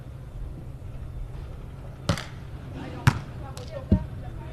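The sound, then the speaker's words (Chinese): A volleyball being served by the Haikou team, heard as three sharp ball impacts spaced about a second apart, each a brief thud standing out from a low steady background. “现在海口是一队来发球，”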